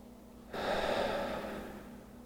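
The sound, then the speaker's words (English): A gentle breath during a guided relaxation exercise: a soft, airy whoosh that swells suddenly and then slowly fades over under two seconds, quiet and alone. “Let's just take three gentle breaths.”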